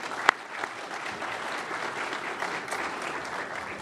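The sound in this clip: An audience applauds to welcome an expert panel, a steady, moderately loud wash of clapping with one sharp crack standing out near the start.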